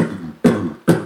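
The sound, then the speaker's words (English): A beatboxer imitates a bass drum with an explosive, low diaphragm-driven vocal kick: three short, punchy, evenly spaced bursts, each with a sharp attack and a quick decay. “So I, when I need to get a bass drum sound, I go like this.”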